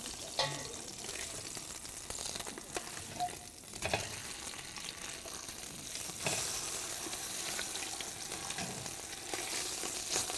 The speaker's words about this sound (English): So as it's searing, let's see if we're getting somewhere now.